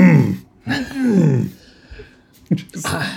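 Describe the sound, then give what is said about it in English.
A voice imitating an indignant throat clearing: a few gruff, guttural vocal bursts with short pauses between them, loud and close. “his just very incensed clearing of his throat throughout”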